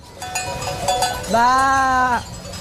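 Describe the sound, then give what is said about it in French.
A person imitates a ewe bleating to call her lamb, a single sustained nasal bleat of nearly a second, fairly steady in pitch and louder than the quieter vocal sounds before it. “c'est quand tu cherches l'agneau, tu peux faire le bruit de la maman comme ça. Comme si t'étais la mère. Tu l'appelles.”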